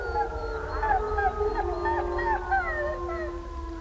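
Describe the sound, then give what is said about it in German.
Wolves howl to mark their territory, several long wavering voices overlapping at different pitches, some gliding up and down. The howling is continuous and moderately loud over a low rumbling background. “Eine zweite Methode der Reviermarkierung ist das Heulen.”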